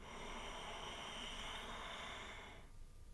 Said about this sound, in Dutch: Laten we dit nog eens drie keer doen. Adem in.